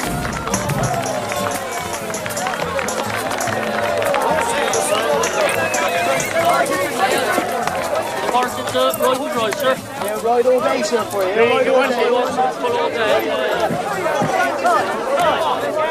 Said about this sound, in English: At a horse fair, a man breathes fire. Men walk on stilts to the applause of the crowd.